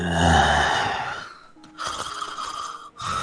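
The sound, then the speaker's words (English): Heavy breathing blown straight into a microphone: long, loud, rushing breaths with a short lull between them and no talking. “breathe real heavily into the mic”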